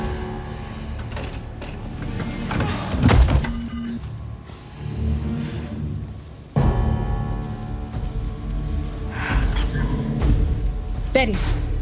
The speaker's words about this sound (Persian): در رو ببند، یه دقیقه بیشتر طول نمیکشه.